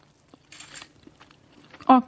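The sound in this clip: Biting and chewing a dry, crunchy rice food: a short crisp crunch is followed by a few faint chewing sounds, and a voice is heard briefly at the end.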